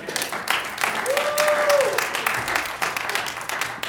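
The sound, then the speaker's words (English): Audience applause, steady clapping that holds at an even level throughout, with voices calling out over it. “Let's give him another hand.”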